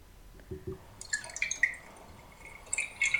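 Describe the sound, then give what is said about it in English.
Liquid swirled inside a J2O glass bottle makes faint, irregular sloshing and dripping sounds, with a few soft low knocks at the start followed by scattered higher splashes. “It's you swirling liquid. That's what you think? Yeah. I picked up a J2O bottle and I went...”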